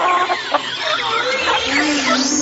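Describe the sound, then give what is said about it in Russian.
Hens cluck excitedly in a henhouse, a busy, overlapping chorus of short squawking calls that carries on throughout at moderate loudness. “Возбужденно кудахтали куры.”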